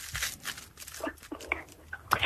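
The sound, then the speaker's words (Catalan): Aluminium foil crumpled by hand gives an irregular series of crackling, crinkling bursts, mostly soft with a few sharper crunches. “Fa aquest soroll, si el moc amb les mans. Arrugo.”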